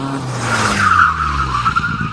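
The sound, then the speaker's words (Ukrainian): Car tires screech in a long skid on a busy road. A sustained high squeal rides over a low engine rumble for more than a second, then breaks up into rougher noise at the end. “ти ледь не потрапив під машину.”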